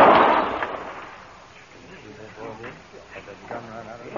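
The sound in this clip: A gunshot from a trick shot aimed at a glass held in someone's hand: a loud, sharp blast at the start rings out and fades over about a second, then men talk.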